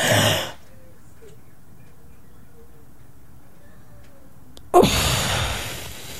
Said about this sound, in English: then albuterol inhaler, shake it. You're supposed to take a deep breath in, out. You take this and you suck it in.